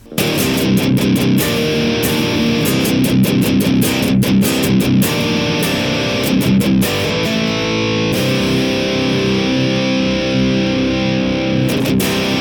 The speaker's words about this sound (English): If we switch over to our Neural DSP, Archetype Gojira in stereo, the DF2 Jubi V30 sounds like this.